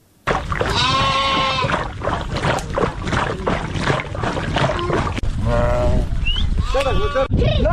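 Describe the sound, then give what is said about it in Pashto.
A nomadic herders' flock of sheep and goats bleats in Afghanistan: many wavering, nasal bleats rise out of a steady, dense bed of shuffling noise, loudest near the start and again toward the end. “دا راپور یې پرې چمتو کړی چې د کوچیانو درمې په غږ سره پیلېږي”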